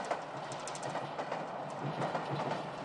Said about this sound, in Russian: От звука приближающегося поезда оконные стекла, стакан с чаем начинают мелко вибрировать. Поезд подъезжает ближе.